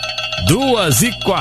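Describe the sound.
Telephone ringing as a listener calls in to a radio show, steady electronic ring tones sounding under a voice that talks over them.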